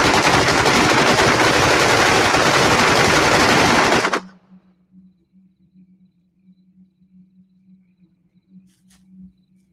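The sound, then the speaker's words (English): A loud, continuous burst of gunfire, opened on command, rattles for about four seconds, then cuts off abruptly, leaving near silence with a faint low hum and a few scattered small clicks. “Do it! On my command! Fire!”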